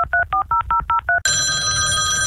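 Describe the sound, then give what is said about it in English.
Telephone ringing on an outgoing call: a rapid series of short two-tone warbling pulses, then an abrupt switch to a steady, harsh continuous line tone. “Outside the Box has obtained unconfirmed audio of the call made by the desperate Special Envoy Stevens to her”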